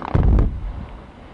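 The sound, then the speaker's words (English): Explosives blasting rock from a limestone quarry wall: a deep, loud rumbling boom with a few sharp cracks at its onset, dying away over about a second. “At Capital Aggregates, a limestone quarry in Georgetown, north of Austin, a crew has just set up some explosives to blast away rock from a quarry wall.”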